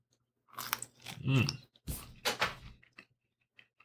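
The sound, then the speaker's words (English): A fresh chocolate-dipped strawberry being bitten and chewed: a few moist crunches and wet chewing sounds in quick succession, then fading to a couple of faint clicks. “This is a chocolate-dipped strawberry. Strawberry dipped in chocolate. Fresh strawberry. So we're going to try this.”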